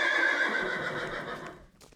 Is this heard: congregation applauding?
no